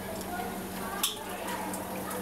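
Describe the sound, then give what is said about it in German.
Faint sloshing and light splashes as a small test container is rinsed out in aquarium water, with one brief sharper splash, heard under a voice. “Die wäscht er einmal so in dem Aquariumwasser aus, damit da eben kein anderes Wasser mehr drin sein kann.”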